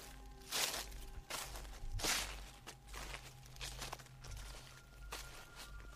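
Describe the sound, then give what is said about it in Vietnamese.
Slow footsteps cross a roof, each step a soft rustling scuff. A few evenly spaced steps stand out clearly over a low, steady background. “A Nùng còn nghe cả tiếng bước chân tựa như đang đi lại trên mái, cứ sột soạt chậm rãi”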